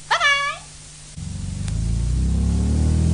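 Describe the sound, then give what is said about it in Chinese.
A sports car engine rumbles up after a short meow-like cry, its low drone steadily growing louder and rising slightly in pitch as the car drives on. “你开跑车开得咁慢嘅啫？”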